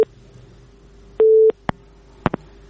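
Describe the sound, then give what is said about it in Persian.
A telephone busy signal sounds after a call disconnects: steady, low-pitched tone bursts, the clearest lasting about a third of a second, followed by a few sharp clicks. “تماس شون فکر میکنم قطع شد”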